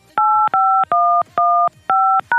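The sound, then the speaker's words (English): Telephone keypad dialing tones as a conference number is entered: six loud, even electronic two-note beeps in a steady rhythm, each lasting about a third of a second with brief gaps between. “You may enter the conference number, followed by the pound.”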